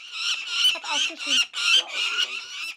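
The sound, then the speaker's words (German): Harsh, high squawking calls from two nine-week-old young lanner falcons learning to fly at Tierpark Edersee. The calls come in a rapid series of loud, rasping cries with short gaps between them. “Ihr Ruf bedeutet, Mama, Papa, hier bin ich. Die beiden Luggerfalken sind 9 Wochen alt und trainieren gerade das Fliegen im Tierpark Edersee.”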